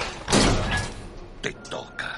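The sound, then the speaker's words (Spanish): A trapdoor springs open under a thug's feet in an animated adventure film, a loud, rough burst of noise followed by a couple of shorter, sharper thumps and clatters. “abre una trampilla bajo los pies del matón. ¡Y le los pies! El matón cae al vacío.”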